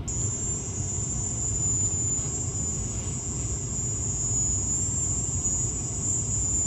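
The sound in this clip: A recording of the high-pitched sound reported by Americans in Havana: a steady, piercing whine that holds at one pitch without a break, loud above a dense low rumbling noise for the whole clip.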